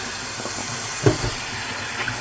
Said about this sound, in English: So I'm going to put that in the sink, wash some of the oil off of my hands,